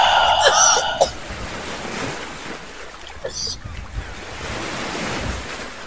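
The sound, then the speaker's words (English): Ocean waves washing in a steady, broad rushing surf with a windy hiss, moderately loud and unbroken throughout. “just breathe comfortably as you listen to the ocean”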